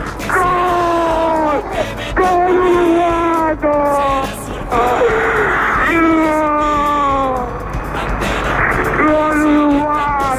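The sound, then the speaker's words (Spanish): A person cries with emotion after a football goal in a semifinal against Hungary, with loud, drawn-out wailing sobs. Several long cries fall in pitch, separated by brief catches of breath. “Acá está el gol. Mirá cómo llora.”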